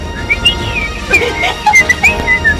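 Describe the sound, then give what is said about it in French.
A man whistles while breathing in, producing thin, wavering high notes in a string of short glides and chirps with soft breathy noise underneath. “C'est incroyable, c'est le seul mec qui siffle, mais au lieu de souffler... En aspirant”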